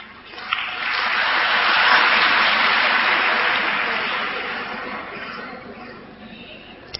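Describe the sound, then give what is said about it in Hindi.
Audience hand-clapping rises quickly into sustained, dense applause and holds for several seconds before gradually thinning out toward the end. “अगर एवरिटी हो तो हाथ की ताली बजाओ”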